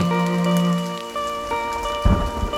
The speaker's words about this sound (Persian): فقط صدای بارونی که میتونه آرومت کنه